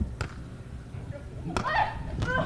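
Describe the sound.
A volleyball serve is struck in a match: three sharp slap-like hits stand out under a commentator's voice.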